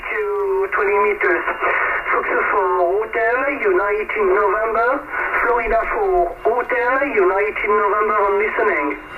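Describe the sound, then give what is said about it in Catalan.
An amateur shortwave radio transmission, a call from France: a thin, band-limited voice talks steadily through constant radio hiss, with the tone shifting and wavering throughout. “Aquest era el so, aquest era el so de la ràdio en aquell moment”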